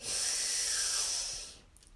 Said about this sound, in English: Just breathe in and out. Breathe in